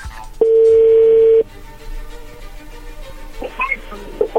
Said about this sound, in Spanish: vamos a llamarle y vamos a ver qué sucede